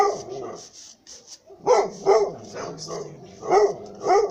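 Dog barking outside, several sharp, loud barks in an uneven rhythm, preceded by a quieter stretch of faint yips and whines.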